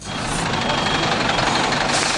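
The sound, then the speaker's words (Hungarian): A crane truck gets ready to lift a car on a city street, its engine producing a steady, dense rumble with broad hissing noise and no clear breaks. “Emeléshez készülődik a daruskocsi.”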